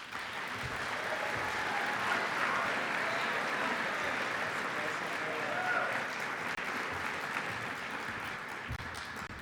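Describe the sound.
Audience applause welcoming a speaker to the stage: dense, even clapping from many hands that holds steady for the whole stretch, with no talk over it.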